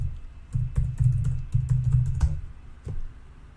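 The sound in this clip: Typing on a computer keyboard gives many quick, irregular keystroke clicks with soft thudding bottoms. It comes in bursts with short pauses and no voices.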